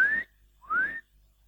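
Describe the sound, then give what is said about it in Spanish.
A mother whistles to call her child: two clear whistled notes, each gliding upward in pitch, separated by a brief pause. They are fairly faint and breathy. “mi mamá tenía una particularidad, silbaba. Si silbaba así,”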